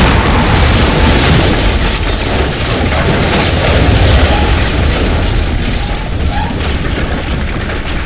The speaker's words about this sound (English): Just as I think my sanity can't take any more, the whole stone chamber around us explodes.